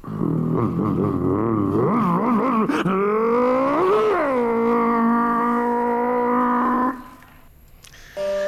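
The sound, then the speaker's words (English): A human voice imitates street motorcycles revving: wavering, throaty tones climb in pitch, then settle into a sustained high, buzzing drone for several seconds before cutting off abruptly. A short burst of noise follows at the end. “All right, here come the first noises. The street bikes.”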